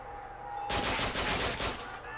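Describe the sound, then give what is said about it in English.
Rapid automatic gunfire in a video game erupts after a short quiet stretch and runs as one sustained, loud, dense burst of shots for over a second before easing off. “Oh, so the weapons are down here where the guys are shooting, right?”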